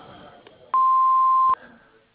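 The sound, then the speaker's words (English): An answering machine gives a single steady mid-pitched beep before a message is recorded. The tone is loud and lasts under a second, with quiet line noise before and after. “please leave a message after the beep, and we'll get back to you as soon as possible.”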